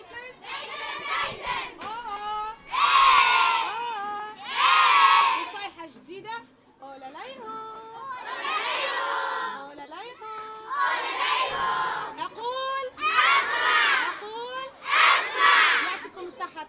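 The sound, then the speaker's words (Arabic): Scouts shout their scout cheer as a crowd of young voices yelling together in rhythmic, loud bursts, separated by brief pauses. “وينهم جماعة الكشافة؟ وين التحية الكشفية؟ كيفاش نسكتوهم بصيحة كشفية باية؟”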